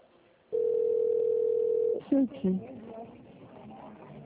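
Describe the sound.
A single steady, mid-pitched telephone tone lasts about one and a half seconds while a call is transferred to a product and services consultant, then brief voices follow.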